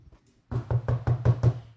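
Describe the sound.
Knocking on a door: six firm, evenly spaced raps in quick succession, loud and alone after a short, nearly silent start.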